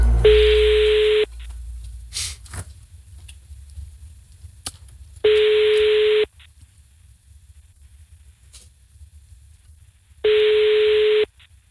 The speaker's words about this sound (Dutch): Ik ga een groep bellen.